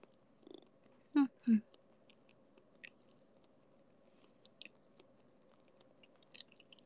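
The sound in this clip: A cat chewing a piece of eel: two louder wet, crunchy bites near the start, then sparse soft clicks and smacks in otherwise quiet surroundings.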